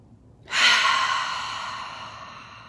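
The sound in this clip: A group takes a deep breath together, heard as one airy, breathy rush. It begins abruptly and then fades slowly over about two seconds.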